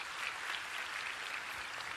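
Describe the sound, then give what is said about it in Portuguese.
Faint applause from an audience for the actors after a performance: a dense, even patter of many hands clapping, with no voices over it. “Uma salva de palmas para os nossos atores.”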